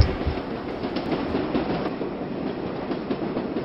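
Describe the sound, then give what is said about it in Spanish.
A subway train arriving at a station gives a continuous rumbling clatter of wheels on rails at a steady, moderate level, with no voices. “Estaba inconsciente cuando el tren llegó a Jay Street.”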